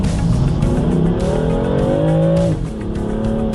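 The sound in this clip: A car engine accelerating as the driver squeezes on the gas during a driving session of alternating braking and throttle; the revving tone climbs steadily for about two and a half seconds, then drops abruptly and continues lower, with no talk.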